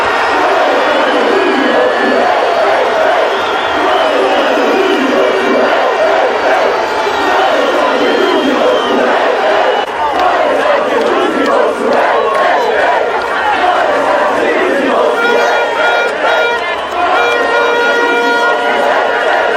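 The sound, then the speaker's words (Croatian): Football fans sing and celebrate on Freedom Square in Tuzla, a loud, sustained mass of chanting and shouting voices that continues without pause across the whole stretch. “Na Trgu slobode tražilo se mjesto više, orila se pjesma, viorile su se zastave, a među navijačima mogli su se vidjeti i oni kojima su suze radosnice govorile više od riječi o značaju ovog uspjeha.”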